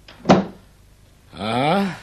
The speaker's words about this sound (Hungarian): Zárd be az ajtót.